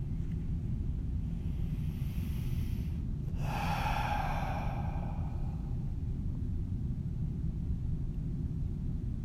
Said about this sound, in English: just breathe deep in through the nose, out through the mouth, release it.